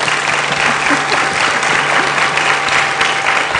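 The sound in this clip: An audience applauds to welcome an author to the stage, dense and even clapping that holds at a steady level for the whole stretch.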